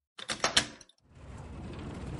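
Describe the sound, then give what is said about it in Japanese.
A key turns in a school classroom door lock with a few sharp metallic clicks. After a short pause, a steady sliding scrape follows as the door is pushed open. “今鍵開けるからちょっと待って。”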